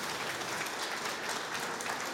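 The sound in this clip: Applause greets a singer in a contest as he walks onto the stage: dense, steady clapping from an audience, fairly soft and unbroken, with no talk over it.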